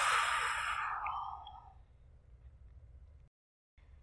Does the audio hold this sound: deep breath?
yes

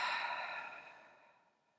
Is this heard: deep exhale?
yes

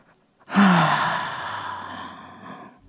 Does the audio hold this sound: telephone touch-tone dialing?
no

